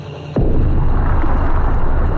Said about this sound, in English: Oh, God. They bombed the city.